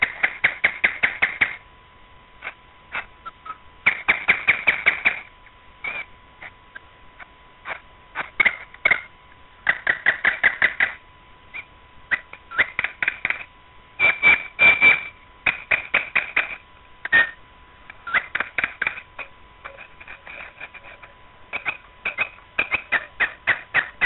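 A nightingale sings near midnight: many rapid, bright trilled phrases, each a burst of quick repeated notes, broken by short pauses, with no voices present.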